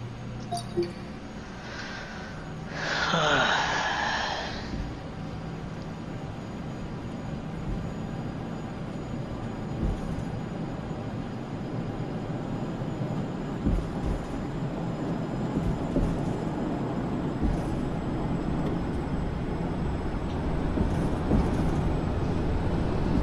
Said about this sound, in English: Microsoft Flight Simulator, Microsoft Flight Simulator X. Apply takeoff thrust. Roger. Applying takeoff thrust.